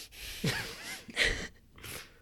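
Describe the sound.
A voice imitates heavy, loud breathing with a few harsh, noisy breaths, each a rough rush of air separated by brief pauses.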